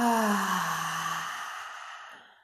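A deep breath out through the mouth during a guided breathing exercise: a long, breathy exhale with a softly voiced start whose pitch sinks slightly, fading steadily over about two seconds.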